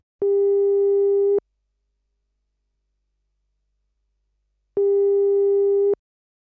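A telephone ringing tone heard while calling someone: two long, steady, mid-pitched beeps, each lasting a little over a second, separated by a long silent gap.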